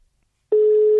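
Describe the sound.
A telephone tone while dialing: after a brief silence, a single steady, fairly low electronic tone starts abruptly and holds at an even level without a break.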